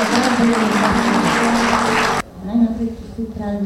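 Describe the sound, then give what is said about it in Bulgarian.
Audience applause at a public event: a dense, steady clatter of clapping for about two seconds that cuts off abruptly, followed by a voice speaking. “Аплодисменти за госпожа Тереза Антонова”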